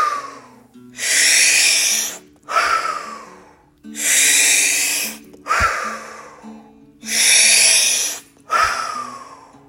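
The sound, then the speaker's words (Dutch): Slow guided breathing: three full cycles of deep, airy inhalations, each followed by a shorter exhalation, in a steady rhythm over a soft sustained low tone. “En blaas uit. En daar gaan we. Adem in. Uit. In. Uit.”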